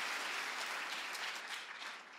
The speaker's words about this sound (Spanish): Si alguien cree que esta palabra le habla, que se escuche ese aplauso.